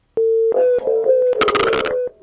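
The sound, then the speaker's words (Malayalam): A telephone tone sounds after a listener's call drops on a radio phone-in line: a steady, loud, mid-pitched tone broken by several sharp clicks, with a noisy burst partway through, then a sudden drop in level at the end. “Yes, ആ ഒരു call ഡ്രോപ്പായി പോയിട്ടുണ്ട്.”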